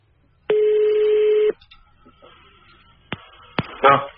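Telephone line signal on an analog phone: a steady tone lasting about a second, then quiet line hiss broken by a few sharp clicks.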